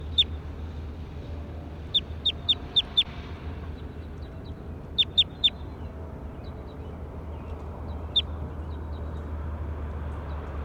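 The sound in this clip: Sharp, high-pitched bird chirps come in quick clusters, a run of about five, then three, then a lone call, with fainter chirps between, all over a steady low hum.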